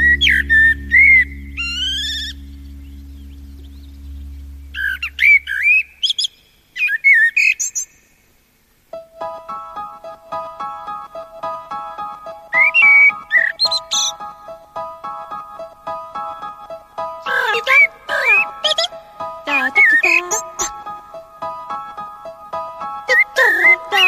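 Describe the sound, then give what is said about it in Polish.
A common blackbird, a black bird with a yellow bill, sings bursts of rich fluting whistles and chirps from an album track. A low drone plays beneath the early phrases, and sustained steady tones hold under the later song. “teraz drugi fragment i kolejny gatunek ptaka, do narysowania którego potrzebne byłyby właściwie tylko dwie kredki, czarna i żółta”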